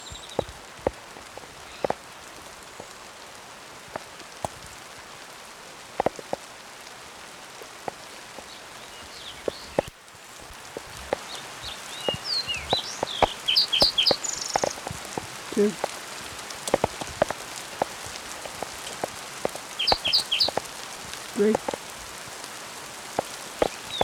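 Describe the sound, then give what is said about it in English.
A hailstorm in progress near Cherokee: many sharp, irregular taps of hailstones over a soft, steady patter, growing denser and louder after the midpoint. “hailstorm in progress”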